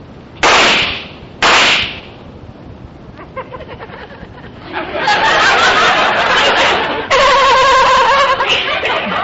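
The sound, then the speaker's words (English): Gunshots from a fired gun, two loud, sharp bursts about a second apart, each with a short decaying tail, followed by a quieter stretch and then a long, noisy passage. “let's fire his gun. That ought to do it. That's a good idea. Stand back.”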